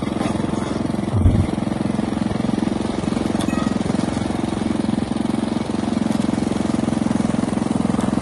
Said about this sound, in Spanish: Y sí, a veces hay que cortar el césped.